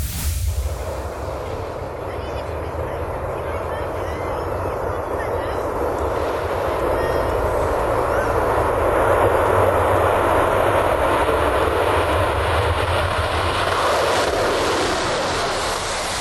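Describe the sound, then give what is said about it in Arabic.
The Concorde supersonic airliner roars in flight, cruising at 2,240 km/h at 60,000 feet, as a steady, broad jet rumble that swells slightly midway and holds throughout. “كان ذلك الصوت الحقيقي للكونكورد تحلق بسرعة 2240 كيلو مترا في الساعة على ارتفاع 60 ألف قدم وهو ما جعلها على حافة الفضاء الخارجي”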